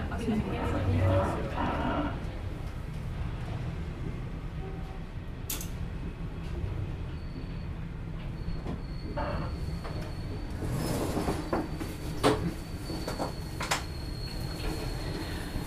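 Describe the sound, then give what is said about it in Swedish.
A passenger train rumbles steadily along its rails as it nears Abisko Tourist Station, heard from aboard. A few brief squeals and clacks rise over the continuous low roar, with faint voices murmuring beneath. “Next stop, Abisko Tourist Station. Please leave the train on your left hand side.”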